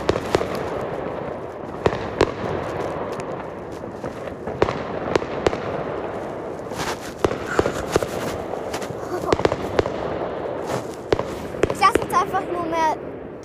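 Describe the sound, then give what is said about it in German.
Fireworks rockets launch and burst in a busy, irregular stream of sharp bangs and pops over a constant crackle, ending in a flurry of crackling, whistling bursts. “Raketensounds. Also die Raketen.”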